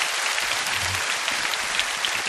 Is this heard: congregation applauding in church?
yes